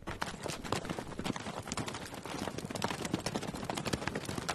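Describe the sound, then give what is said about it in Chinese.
Hooves clop as a horse pulls a two-wheeled carriage carrying a passenger and a large trunk through a village. The hoofbeats are rapid and dense, with continuous rattling and clatter, and they stay fairly steady throughout. “管家贝茨太太驾着双轮马车。把博尔顿太太和大箱子送回了村里的家中。”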